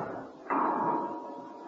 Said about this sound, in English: As Emma Peel sat up holding her head, the heavy door was unlocked and swung open.